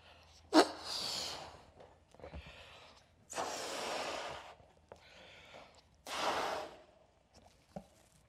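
A person blows three long breaths into something, each a soft airy rush lasting over a second with pauses between, preceded by a sharp click and followed by faint small knocks.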